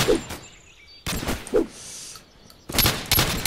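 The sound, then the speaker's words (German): Simple pistol gunfire in a video game: a few sharp, loud shots arriving in separate bursts, with quieter stretches between them and no talking. “Wir haben die mit den einfachen Pistolen, wie wir gerade hörten.”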